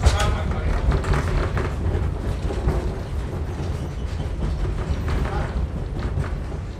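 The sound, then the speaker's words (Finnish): A train runs on rails behind a wood-fired steam locomotive. It makes a steady, loud rolling rumble with faint rapid clicking from the wheels, sustained through the whole clip. “niin sitten tulee semmoinen illuusio, että tämä menee lujaa tämä juna tässä.”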